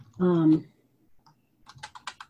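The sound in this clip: Typing on a computer keyboard: a short voiced exclamation, then a quick burst of several sharp key clicks in an uneven rhythm.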